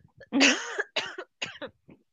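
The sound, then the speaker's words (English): A person coughs, one strong, harsh cough followed by a few shorter, weaker coughs, heard alone without talk. “just bear with me one moment, sorry, I'm going to cough”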